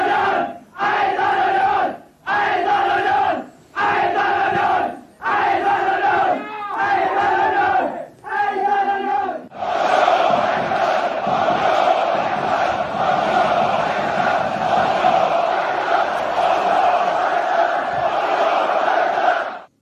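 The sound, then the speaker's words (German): Union Berlin football fans chant the battle cry "Eisern Union" in a run of short, loud, rhythmic bursts with brief gaps between them. The chanting then swells into a long, sustained roar from the whole crowd. “Es geht um den Schlachtruf Eisern Union. Ja. Und gehört haben wir gerade drei verschiedene Versionen.”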